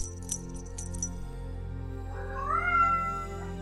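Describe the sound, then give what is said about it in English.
A cat meows once in a drawn-out cry that rises slightly in pitch and then holds, clearly heard over a steady background tone. “Oh, pardon me. That's my cat, Vega.”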